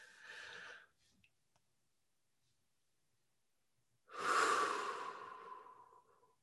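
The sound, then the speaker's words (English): Deep breathing as a group settles in at the start of a prayer practice. One breath trails off at the start, then after a few seconds of silence comes a single long, loud breath that slowly tapers away. “First off, let's do like two deep breaths just to settle ourselves.”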